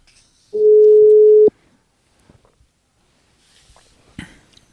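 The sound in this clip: A telephone ringback tone sounds while a call is being placed: one steady, loud tone lasting about a second, followed by faint clicks and rustles.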